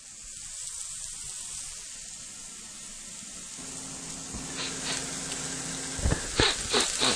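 Food sizzling in a pan during home cooking, a steady bright hiss throughout, joined midway by a low steady hum and near the end by a few sharp clatters.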